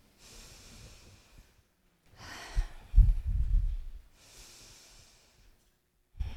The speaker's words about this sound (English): I wonder if you would indulge me today and just start with a couple of deep breaths.